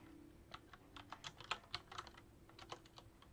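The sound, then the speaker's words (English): Quiet typing on a computer keyboard: many soft, irregular key clicks tapping in quick bursts, faint overall, with a low steady hum beneath. “I'm trying to type quietly, and I make a lot of typos that way.”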